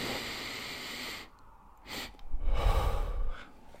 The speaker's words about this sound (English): and then at the end, just a little bit extra, followed by a long exhale out the mouth. So it will sound like a,